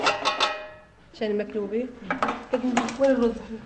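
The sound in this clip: Pots and pans clatter and clink on a stove as maklube, a traditional chicken dish, is cooked for an iftar dinner, with several bright metallic knocks and ringing clangs.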